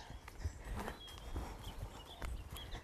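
A pony's hooves clip-clop at a walk on an outdoor hack ride, a steady, even series of fairly loud clops over a constant background hiss.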